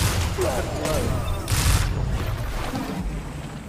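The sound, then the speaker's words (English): Shotgun fire in a Destiny 2 Crucible match, with one loud, broad blast standing out in the middle of a noisy stretch of game sound. “I got a shotgun. I'm not afraid to use it.”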